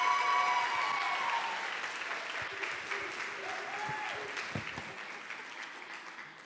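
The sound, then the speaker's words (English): An audience applauds as a woman speaker is called up at an evening church gathering, with dense, sustained clapping that slowly fades. “Give her a hand.”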